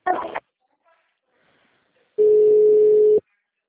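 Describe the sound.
Telephone line tone during a transfer of a call to Banco Master: after a brief sound and a quiet pause, one steady tone lasts about a second, then cuts off.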